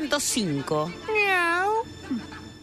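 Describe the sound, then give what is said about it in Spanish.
A human voice imitates a cat meowing: a few short nasal meows and one long, drawn-out wavering meow in the middle, with brief pauses between them. “Miau. Miau. Hola, gato. Ahí está el gato”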